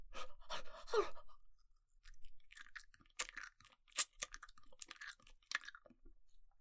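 Crunchy chewing of food with a firm, gizzard-like texture, a run of many moist bites and crunches in uneven rhythm. Some bursts are louder than others, with short quiet gaps between them and no talk.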